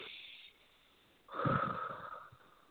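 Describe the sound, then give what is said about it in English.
A big, deep breath is drawn in by a group during a guided meditation, a soft airy rush that swells after a quiet stretch, peaks briefly and then fades. “Everyone take a big, giant breath.”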